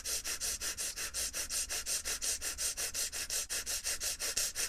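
Rapid breathing with the teeth held together in a smile, heard as a quick, even train of soft hissing breaths, about five per second, pulsing steadily without pause.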